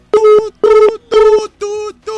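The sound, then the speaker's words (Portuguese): A telephone tone after a dropped call: loud, even beeps at a steady mid pitch, repeating in regular bursts with short gaps, five in all, the last one cut off. “caiu sua ligação.”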